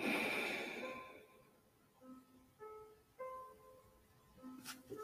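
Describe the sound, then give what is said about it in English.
A slow exhale through one nostril during alternate nostril breathing in a guided reiki meditation, loudest at the start and fading over about a second, with soft sustained music tones beneath. “Now you're going to breathe in through that now open nostril. Close it and breathe out.”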